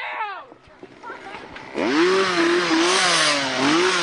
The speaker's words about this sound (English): So, the more I run away from the chainsaw lady, the more she tries to chainsaw me.